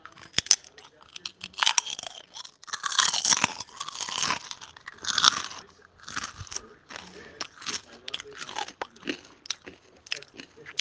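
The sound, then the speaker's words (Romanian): Crunchy food is bitten and chewed: many loud, crackling crunches follow in an uneven rhythm, rising into bursts of rapid chomping, with brief pauses between the mouthfuls. “Bine ați venit la primul episod din podcastul meu. Ce mănânc eu?”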